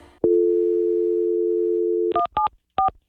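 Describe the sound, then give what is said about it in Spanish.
Telephone line tones on a radio call-in: a steady low dial tone holds for about two seconds, then a few short, higher dialing beeps follow with brief gaps between them. “Vamos con esta llamada a Texas.”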